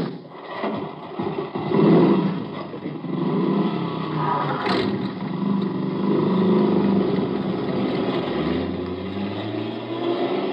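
A car driving off, with a steady engine rumble throughout and a low whine that rises in pitch near the end; no voices.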